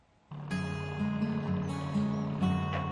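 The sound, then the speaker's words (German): Steady engine drone of the small fishing boat Kelly casting off from Boston, Great Britain, and heading out to sea to dredge mussels. A low, even hum with tonal overtones starts abruptly and holds at a constant level. “Nur die Kelly macht noch die Leinen los, raus aufs Meer, um noch eine Fuhre Muscheln abzufischen.”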